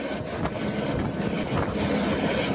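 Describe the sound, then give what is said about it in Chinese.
Helicopter loaded with relief supplies such as instant noodles and bottled water for disaster-hit villages gives a steady, loud rotor and engine roar throughout, with no talk. “2架满载方便面、矿泉水等生活物资的直升机从常德市石门县全民健康活动中心操场起飞”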